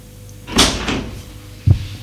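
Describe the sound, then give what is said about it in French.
A door opens in a household scene as a servant comes in: a short burst of clattery handling noise with a second softer rattle, then a dull, low thump a second later. No voices. “Porte s'ouvre.”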